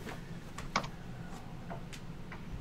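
Faint, sparse clicks of typing on a computer keyboard while entering a person's name, a few light taps scattered over a low background hiss, with no talk.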